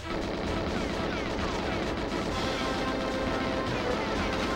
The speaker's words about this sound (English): got me with a rocket launcher.